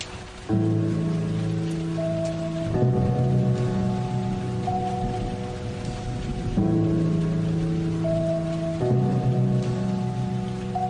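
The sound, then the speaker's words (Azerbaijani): Heavy rain pouring down in a storm with lightning, a dense, steady hiss that runs unbroken under a sustained tonal drone whose pitches shift a few times. “Ne ağır yağış yağışır. Yıldırımın sesi gelir.”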